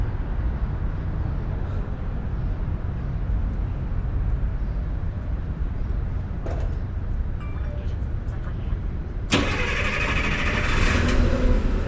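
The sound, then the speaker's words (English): A city bus engine starting up after a short stop: a low, steady rumble runs throughout, then a sudden louder, broader surge comes near the end. “seems like that driver had taken a small break. He just turned on the bus.”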